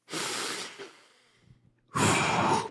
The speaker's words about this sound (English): I want to sign off with some positivity and a little meditation. Breathe with me, you fucks.